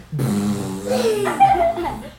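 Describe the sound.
A voice imitating a fart in place of a motorcycle starting in a told story, a short buzzing, sputtering vocal tone that wavers and slides upward in pitch.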